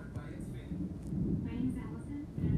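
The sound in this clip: Thunder rumbles during a lightning storm, a deep, low, continuous roll that swells slightly near the middle and end, heard beneath people talking.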